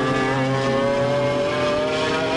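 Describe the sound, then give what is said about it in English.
A black van's engine drones steadily as the vehicle drives into a garage. The low, even hum holds constant without revving or any clear change in pitch. “because just below them, there now enters a spooky black van in the garage.”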